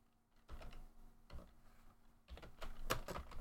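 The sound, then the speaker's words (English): Faint, irregular clicks of typing a search on a computer keyboard, coming in short scattered bursts of keystrokes that grow busier and denser toward the end. “It's a little easier to type that in.”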